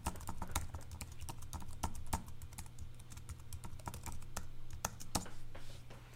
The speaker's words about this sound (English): So I'm going to log in with a sample user account.